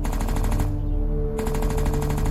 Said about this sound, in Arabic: وفجأة دوى صوت سلاح ناري، سلاح من طراز مختلف تماما.